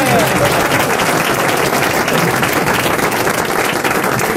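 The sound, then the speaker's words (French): An audience applauds with dense, steady clapping that stays loud and unbroken from start to finish. “Je sais que quand vous faites ça, c'est que tout le monde doit applaudir.”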